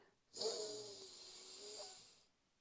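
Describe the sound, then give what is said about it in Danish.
One long breath is drawn in during a relaxation exercise before sleep. It makes a soft, airy hiss that lasts about two seconds, then fades out. “Da starter vi med å puste inn”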